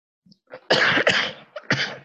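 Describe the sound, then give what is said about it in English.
Harsh, forceful coughing: a few loud, rough bursts after a couple of small lead-in sounds, with short gaps between them and no speech. “I'm sorry for coughing through this whole thing”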